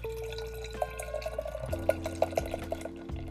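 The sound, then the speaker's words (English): Oyster Stout from Dayton Brewery pours into a snifter glass, a faint liquid trickle broken by a run of small glugs and splashes, heard alone without talk. “Ah, hear that. Beautiful. Give it a bit of a pour in my snifter glass.”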